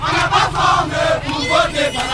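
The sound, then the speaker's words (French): Crowd of villagers cheering and shouting in acclaim for a local mayoral candidate, a dense, continuous roar of many voices throughout. “Acclamé une fois de plus, Kalou”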